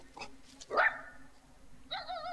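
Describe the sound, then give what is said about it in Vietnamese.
A dog barks: one loud, sharp bark stands out, with fainter high-pitched yips around it over a quiet background. “gì mà mày sủa hoài vậy? Tao là gần chết ở đây mà cứ sủa hoài à.”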